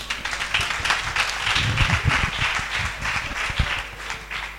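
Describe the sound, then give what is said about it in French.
A church audience claps in praise of Jesus with steady, continuous applause over a low rumbling undertone, holding fairly even in loudness throughout. “On acclame encore Jésus.”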